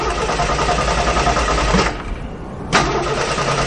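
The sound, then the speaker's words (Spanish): A car engine being started and then stalling: a steady, loud mechanical rumble that drops away briefly in the middle and then surges back. “Los dos se montan en el coche. Al arrancar el vehículo se para.”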